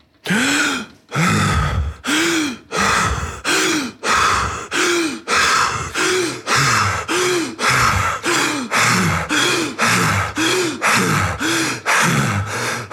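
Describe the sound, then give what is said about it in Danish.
Deep, rapid breathing without pauses, done as a meditation breathing exercise: loud, forceful inhales and exhales in a steady, fast, unbroken rhythm, roughly one breath per second, with no voices. “Man skal trække vejret dybt og hurtigt og uden pauser. Altså sådan her.”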